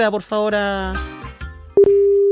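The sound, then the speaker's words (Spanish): A telephone tone sounds while a phone call is placed. Two quick pulses lead into a steady, loud, mid-pitched tone, following a stretch of voices and music. “proceda, por favor, a efectuar la llamada telefónica.”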